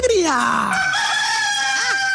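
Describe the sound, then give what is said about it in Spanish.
A rooster crows in one long, loud call, opening with a falling glide that settles into a sustained, bright, harmonic tone. “La sinceridad, el gallo es una chimba.”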